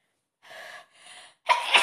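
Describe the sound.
Allergy sneeze: two short, breathy inhales and then a sharp, loud, noisy burst, with no talk.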